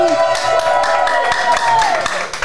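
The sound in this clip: Rhythmic clapping and cheering from a studio audience at a French evening talk show, loud and steady across the whole stretch.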